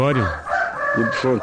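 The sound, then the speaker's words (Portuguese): A rooster crows loudly in one long, drawn-out call on a rural settlement, overlapping a man's voice. “Olha o galo cantando aí.”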